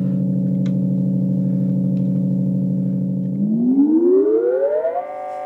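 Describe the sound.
A Moog synthesizer holds a loud, steady layered tone of three voices about a whole tone apart, then after a few seconds glides smoothly upward in pitch and settles on a higher held chord.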